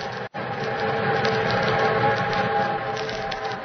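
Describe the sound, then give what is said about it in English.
Deep, steady rumbling roar of an eastbound train running along the tracks. It's loud and continuous, with one brief gap near the start. “Meanwhile, the eastbound train thundered on.”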